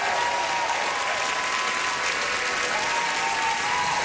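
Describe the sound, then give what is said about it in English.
Concert audience at the Chan Centre for the Performing Arts in Vancouver applauding at the end of a show, a thick, even wash of clapping sustained without a break. “Come on, Vancouver, make some noise!”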